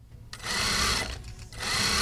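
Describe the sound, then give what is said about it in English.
Sewing machines whir as garment workers stitch dresses in a downtown Los Angeles workshop. The continuous motor hum dips briefly midway, then picks back up, with no voices. “A few floors above the streets of downtown LA, sewing machines are humming as workers stitch together dresses for a small LA brand called Ocean and Main.”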